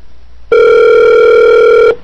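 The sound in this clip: A telephone signals an incoming call with a single loud, steady electronic tone. The tone holds unwavering for about one and a half seconds, then stops.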